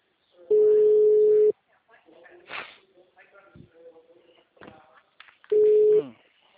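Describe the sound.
Ringback tone on an outgoing phone call: two steady, mid-pitched beeps. The first lasts about a second, and the second comes several seconds later and is shorter. Faint murmurs and small noises sit in the quiet gap between the beeps.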